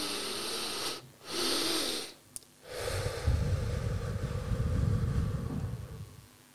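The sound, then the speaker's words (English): Breathing exercise with a double inhale: two airy intakes of breath in close succession, then a long, prolonged, rushing exhale lasting several seconds, with no talking. “And as you're getting to the end of the first inhale, you take another inhale. I'll practice it here. And then the key is the long, really long, prolonged exhale.”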